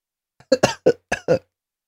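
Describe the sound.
A person coughs in a quick, harsh burst of about five coughs packed into roughly a second, each short and loud, with no speech around them.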